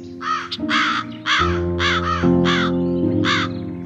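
Crows caw harshly around a cornfield, giving a run of loud, rasping calls in quick, uneven bursts over a steady low humming tone.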